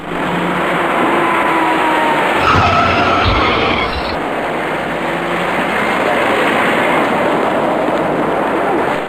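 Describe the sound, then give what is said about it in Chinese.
A silver car rear-ends a slowing dark car on a busy Third Ring main road at the start of evening rush hour. A short loud burst with low thuds rises out of a constant roar of traffic. “从后面驾车开上来的这位银色小客司机似乎没有注意到前面那辆深色小客减速的动作，由于速度较快，这辆银色小客猛然追撞上前方行驶的那辆深色小客”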